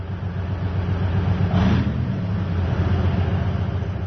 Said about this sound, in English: Soldiers from the Biloetserkva Air Defense Regiment are driving their anti-aircraft missile system called OSA into cover. This giant Soviet armored vehicle on wheels is a lucrative target for Russian drones.